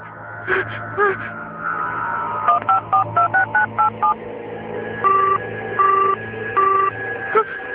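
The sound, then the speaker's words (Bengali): Keypad tones as a phone number is dialed. A quick run of short, bright beeps gives way to three longer, evenly spaced tones over a steady low drone. “শরীফ, শরীফকে phone দিই।”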